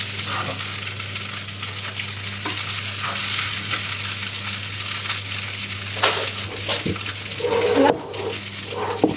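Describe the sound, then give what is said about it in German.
Spätzle frying in a pan give a steady, loud sizzle with scraping and stirring sounds throughout, and a few sharper clatters near the end. “Ich muss natürlich auch ein Kuchen hier aus der Pfanne machen.”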